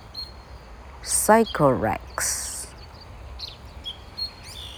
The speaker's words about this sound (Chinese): 同学注意到，小鸟都来听故事了吗？很吵。